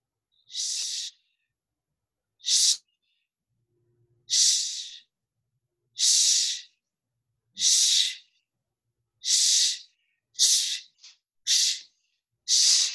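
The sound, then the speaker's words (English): A person breathes in and hisses a sharp shh again and again in a breathing exercise. The bright bursts come at a steady pace at first, then crowd closer together toward the end, with silence between them. “we're going to inhale and say the word shh, and we'll do this 10 times in a row, getting a little faster towards the end.”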